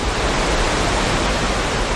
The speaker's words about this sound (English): The new flood wall blocks her view, but you can hear the water racing behind us.